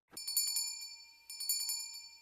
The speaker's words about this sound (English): Would you be so kind as to ring the bell?